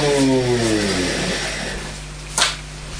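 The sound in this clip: A person's voice imitates a toy car engine while playing with the toy, a buzzing drone that starts strong and drops in pitch over about a second before fading into quieter noise.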